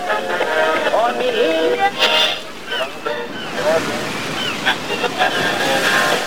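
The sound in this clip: Wind and waves surround a small raft being rowed at sea in a radio drama, with a steady rush of water and wind noise and brief splashing surges throughout.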